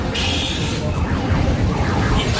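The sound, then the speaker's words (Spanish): Fairground din from bumper cars and a tombola stall fills the whole stretch as a loud, dense, continuous wash of machine rumble and crowd noise, with a thin high tone near the start and voices mixed in. “Mira, ahí el auto de choque por detrás. Y la tómbola.”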